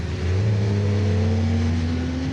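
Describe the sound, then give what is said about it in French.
A Formula 1 car on slick tyres revs loudly on a very wet, slippery, oily track; the dense engine drone holds steady while its pitch slowly climbs. “Alors là, vous voyez, je suis derrière une F1 qui roule en slick.”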